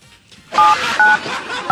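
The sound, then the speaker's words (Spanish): Telephone keypad dialing tones: three short electronic beeps at an even pace, with some background noise between them. “yo le voy a marcar y vea para que suene”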